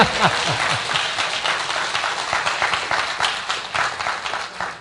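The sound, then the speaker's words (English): Audience applause during a talk on defending marriage and family: a steady, moderately quiet wash of many hands clapping that holds evenly for the whole stretch, with no clear break or peak. “go ahead, you can all clap.”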